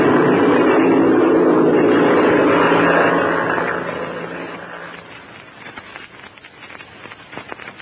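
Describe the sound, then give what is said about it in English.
Airplane taxiing and taking off: a loud, steady engine roar that holds for a few seconds, then fades away and leaves faint crackle. “We're going to taxi out of ways, Chuck, and then take off to the north.”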